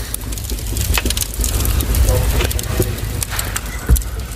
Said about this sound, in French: Le feu est chaud quand même. Il est chaud, ça. Tu peut-être aller enlever une bûche.